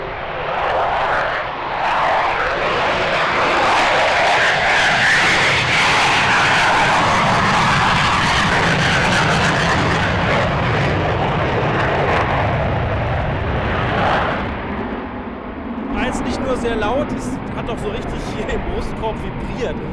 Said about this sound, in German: Das war jetzt lediglich der Start im Trockenschub ohne Nachbrenner. Also es geht noch lauter, wenn es noch schneller gehen muss.